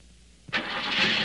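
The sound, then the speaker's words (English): A car engine with a dirty carburetor starts after a short click, then runs loud and rough with a steady, harsh roar and no voices. “You may think you're stuck with a lemon, when all you're really stuck with is a dirty carburetor. Because that's all it may take to make your engine run rough and lose power.”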